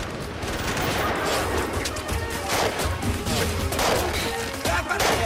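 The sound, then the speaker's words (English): Gunfire from U.S. soldiers shooting at insurgents, a loud, dense fusillade of many rapid shots and bursts that overlap into a continuous crackling barrage throughout. “U.S. soldiers fire at the insurgents.”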